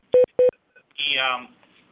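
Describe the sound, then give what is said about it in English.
Two short, identical electronic beeps in quick succession, loud and clean, followed by a brief burst of voice. “I don't know what's going on with this beep, but sounds like a battery issue.”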